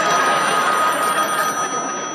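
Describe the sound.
A telephone rings in a loud, steady, continuous tone with a bright metallic edge. The ring holds unbroken through the short stretch, with no voices over it.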